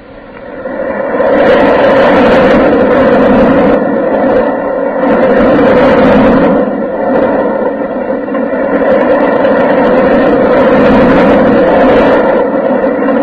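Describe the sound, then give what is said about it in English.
Continuous loud rumbling of a roller coaster ride at an amusement park, a dense, steady roar that swells and eases slightly in a few waves without breaking off. “the next thing I want to know is how to take a ride on the roller coaster”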